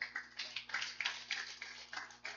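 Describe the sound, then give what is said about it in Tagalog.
Scattered clapping from a church audience applauding God during a Christian service, faint, with irregular overlapping bursts over about two seconds. “Ganyan pong ginagawa dapat na tayo pong mga Kristiyano. Prayers. Palakpakan natin ng Panginoon.”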